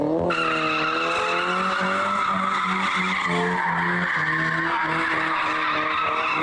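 Tires squealing as cars drift on roads in Ankara, a loud, unbroken screech with wavering pitch under broad road noise, lasting the whole stretch without voices.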